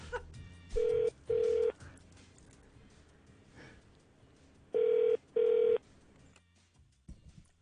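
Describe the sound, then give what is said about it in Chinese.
A telephone call rings out as the line is dialled, giving four loud, steady ringing tones in two pairs with a long gap between them, over a low hum and faint background noise. “跟住落嚟打呢个电话，我哋非常之想 打得通嘅”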